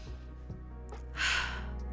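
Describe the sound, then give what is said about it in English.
A single deep breath drawn in, a soft airy hiss that swells for about half a second and fades, over a faint steady low hum with no talking. “let's take a deep breath”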